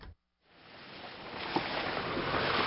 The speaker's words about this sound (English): We've been driving from the capital, Kathmandu, to one of the worst affected areas, the district of Rasua. What you're hearing are the winding, dizzying dirt roads up the mountains of northern Nepal.